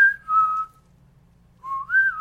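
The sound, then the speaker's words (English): A person whistles two clear, pure-toned notes separated by a gap of silence. The first holds steady and dips slightly; the second slides upward and then levels off. “I'm just whistling”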